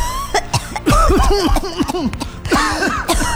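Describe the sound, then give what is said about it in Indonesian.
Repeated harsh coughing from someone who has breathed in forest-fire smoke. Several strained, voiced coughs come in quick bursts, loud and close, with brief pauses between the fits. “Batuk kan jadinya kita kan.”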